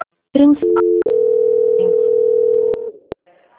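A telephone line tone after a dropped call: a short beep gives way to a loud, steady, unbroken tone lasting about two seconds, which then fades out. A single sharp click follows.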